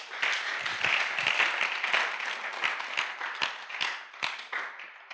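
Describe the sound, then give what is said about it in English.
Congregation clapping at a church service, a dense burst of many hands applauding steadily for about five seconds with sharp individual claps standing out, fairly loud and without talk. “Somebody clap for Jesus.”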